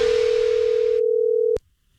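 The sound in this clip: A telephone dial tone opens a radio prank call: one steady, unbroken tone held for about a second and a half, cut off by a short click and followed by near silence.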